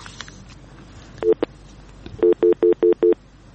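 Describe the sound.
Telephone tones as a call connects: two brief tones, then five even, steady beeps in a regular rhythm over faint background noise.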